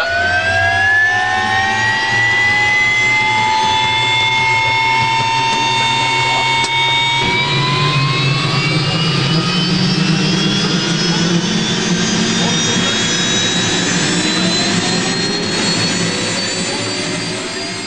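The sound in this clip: A jet aircraft takes off with a loud, continuous roar. High whining tones rise slowly in pitch and hold steady, and the roar eases slightly at the very end.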